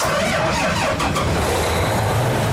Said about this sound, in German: Der Mähdrescher auf dem Hof von Sebastian Fegler in Züssow soll in die Erntesaison starten.